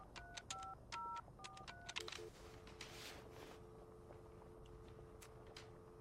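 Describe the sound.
Touch-tone keypad beeps as a telephone number is dialed, a quick series of short paired tones, followed by a steady low tone that holds on the line to the end, with no voices.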